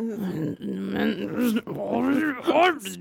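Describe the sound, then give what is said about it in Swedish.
A voice imitates an angry growl in an office: low, rumbling vocal tones in several drawn-out bursts with short breaks, growing more strained and rising in pitch near the end. “så var jag så här, bara började sakta men säkert morra inne på kontoret”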